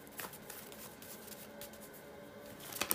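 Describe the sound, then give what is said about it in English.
Tarot cards being shuffled: faint, soft riffling and brushing with a few brief crisp bursts, the loudest near the end. “it's of course me shuffling the cards”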